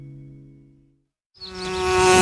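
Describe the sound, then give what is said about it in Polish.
Bees buzzing in flight: a steady, bright, harmonic drone starts up after a low fading hum and a moment of silence, and holds loud to the end. “Wszystkie pszczoły tam lecą.”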